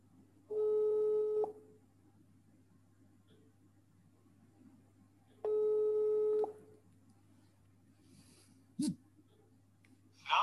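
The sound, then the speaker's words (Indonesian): A telephone line tone sounds as a call is placed again. Two steady, loud tone bursts about a second long are spaced several seconds apart over a low background hum, followed by a brief faint blip. “Kita coba menghubungi kembali.”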